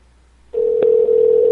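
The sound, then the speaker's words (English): A telephone dial tone, heard while calling someone back, starts abruptly after a moment of near silence and holds as one loud, steady, unbroken tone, with a faint click partway through. “Do you want to try calling her back one more time? Sure. Maybe you just dialed back too quickly.”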